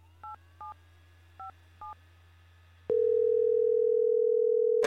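Telephone dialing tones: four short touch-tone beeps in an uneven rhythm over a faint low hum, then a click and a loud steady tone held for about two seconds, ending in a brief burst.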